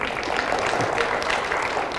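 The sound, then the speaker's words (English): Church audience applauding: a dense, steady wash of many hands clapping that holds at an even level throughout without a break. “I think a lot of that applause goes to yourself more than me.”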